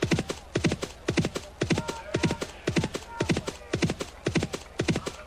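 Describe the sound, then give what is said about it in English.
Galloping horse hoofbeats in an audio horse racing video game, a steady, driving run of many quick clip-clop hits in repeating gallop groups, moderately loud and heard on their own. “Your opponent's horse position on the track is 39. Your position on the track is 57. The sounds pan, I think, the closer you get to the finish line.”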